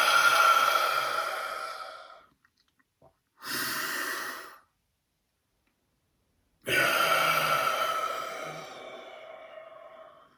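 Deep breathing from a guided belly-breathing exercise: a long breath drawn in, then loud, audible exhales blown out through the mouth. Three breathy rushes, alone, with quiet gaps between them and the last one the longest.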